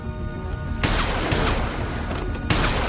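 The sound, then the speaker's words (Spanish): Pistol gunshots ring out during an armed confrontation in an action thriller, a few sharp loud cracks cutting through a dense, rumbling backdrop. “Dispara al afroamericano y después al gigante en la pierna.”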